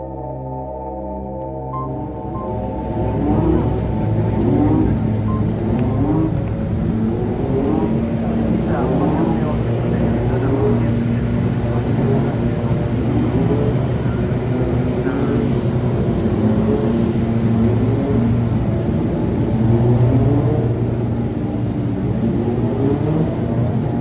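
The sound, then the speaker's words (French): Formula 1 car engines starting up during Friday practice: a loud, continuous mechanical roar as engines catch and build, with many revs rising and falling in pitch over a steady low drone. “C'est vendredi, le premier jour des essais, et les premiers moteurs vont partir.”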